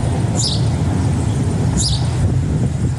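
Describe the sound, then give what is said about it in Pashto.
A bird crying out in two short, high chirps about a second and a half apart, over a steady, loud rushing noise. “د مرغۍ چغا په خود کړ.”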